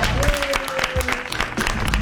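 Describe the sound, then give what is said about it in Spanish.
Applause from a live audience as a show opens, a busy patter of claps that swells and dips slightly before building again toward the end. “Es zona Sarasa, el aplauso. Bravo.”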